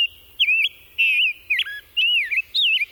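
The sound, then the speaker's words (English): A rose-breasted grosbeak sings along a Chicago birding trail in clear, rich, warbling whistled phrases. About five short, loud phrases follow one another with brief pauses against a quiet background. “the Chicago Birding Trail introduce you to the songs of the rose-breasted grosbeak”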